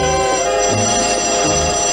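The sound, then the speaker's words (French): A telephone rings with a steady, bright electric bell tone. The ringing is loud and continuous throughout, heard alone without voices. “le moment où le fiancé de Yannick reçoit son mystérieux coup de téléphone”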